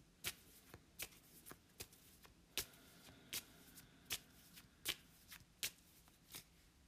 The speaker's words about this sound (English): Okay, so as I went to shuffle, just one card slipped out in my hand,